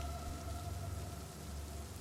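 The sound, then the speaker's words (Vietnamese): Rain falling on a river at night, a steady, dense patter of drops that continues evenly throughout with no voices. “ngoài những giọt mưa đang nhảy lăng tăng trên sông”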